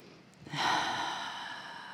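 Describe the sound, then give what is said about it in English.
A single deep breath drawn in, one long, airy inhalation that swells quickly and then holds for over a second before gently fading, with no talk over it. “So take a big breath in of this cleansing light.”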